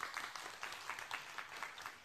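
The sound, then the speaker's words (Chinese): A church audience claps, many hands striking together in a loose, roughly rhythmic pattern of repeated bursts, faint and without talk. “阿们的拍手，把荣耀归给神。”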